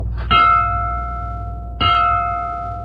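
Two bright metallic bell strikes, rung as a signal that a war is over. Each clang rings on in a long, sustained tone that slowly fades, and the second strike comes about one and a half seconds after the first.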